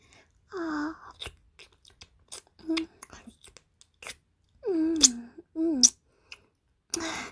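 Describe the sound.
Small sips and wet mouth clicks as a fairy tastes a liquid, coming in short separate bursts and broken up by pleased, hummed vocal murmurs.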